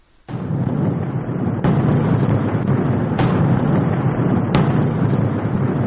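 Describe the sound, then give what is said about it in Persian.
Explosions from bombs striking the Hamas prime minister's building in Gaza during resumed Israeli airstrikes, a loud continuous roaring rumble broken by a few sharp cracks. “چهار بمب روی ساختمان نخست وزیری حماس در غزه. روشنی آسمان همراه بود با از سرگیری حمله های هوایی اسرائیل به نوار غزه.”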